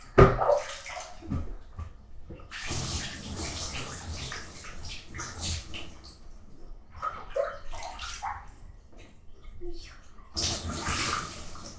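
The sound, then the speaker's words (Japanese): Bath water scooped and poured to rinse off instead of using the shower, with a few loud, splashing pours separated by quieter stretches of trickling and dripping. “シャワーを流すとちょっと危険なので、お風呂のお湯で流します。”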